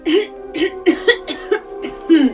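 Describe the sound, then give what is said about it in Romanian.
A woman coughs in a run of many short, throaty, voiced bursts with brief gaps between them, fairly loud and with no talk alongside. “Ești răcită, verișoara de la Ido. Eu? Să mă ferească Dumnezeu. Păi, atunci de ce tușești?”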